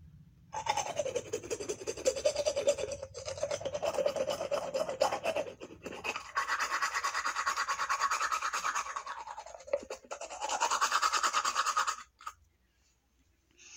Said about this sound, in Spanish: todos los días me cepillo los dientes después de cada comida.